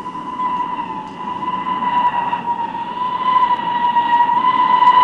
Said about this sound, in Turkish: İşte tren geliyor.